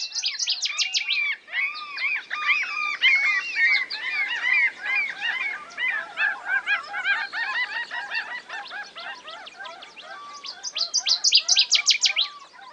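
A huge chorus of migrating birds calls together at a subarctic nesting and breeding ground in spring. Dense overlapping chirps, trills and goose-like honks fill the whole stretch, loud and continuous, and they swell near the end.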